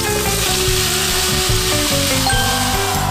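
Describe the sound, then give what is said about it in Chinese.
A pork chop fries in butter, giving a loud, continuous sizzle that holds steady throughout with no talk. “你说这面拿黄油煎了”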